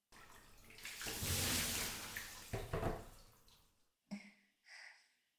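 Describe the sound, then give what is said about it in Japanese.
Bath water is poured over someone's back to rinse it. A full rushing pour lasts about four seconds, then come two short splashing bursts, with no voices. “ほら、ママが背中流してあげる。”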